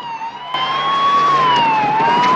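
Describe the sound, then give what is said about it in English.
A police car siren wails as the car races to a burning apartment building. The slow, piercing tone rises and falls. Heavy road and engine noise swells in after a brief quieter start. “An apartment building is ablaze as Murphy and Corelli's car races to the scene.”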